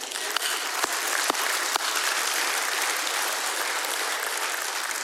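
A church audience applauds its prayer team with sustained, dense clapping. The clapping holds steady throughout, with a few sharper, louder claps standing out early on.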